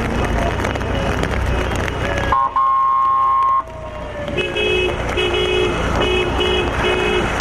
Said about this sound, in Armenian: Նրանք դանդաղ էին վարում մեքենաները, ցանկանալով կանգնեցնել երթևեկությունը։